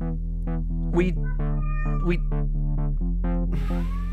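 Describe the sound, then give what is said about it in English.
A hungry cat with sharp claws meows a few times, its rising and falling cries standing out over steady, sustained musical tones. “He's a hungry cat with sharp claws, so just behave yourself.”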